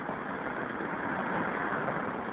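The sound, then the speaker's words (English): Street traffic beside a curbside payphone at Northern Boulevard and 41st Street, a steady engine rumble and hiss with idling vehicles and no voices. “It's my favorite kind of payphone. It's like out in traffic, practically in traffic, right on the curb. Northern Boulevard and 41st Street.”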